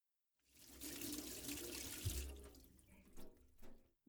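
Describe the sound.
Water runs steadily from a tap into a sink while hands are washed, a faint continuous splashing flow lasting several seconds, with a few brief louder splashes near the end before it stops.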